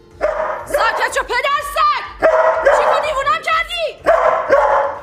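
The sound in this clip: A dog barks and yips in three loud bursts, each a quick cluster of high, whining yelps and barks separated by short pauses.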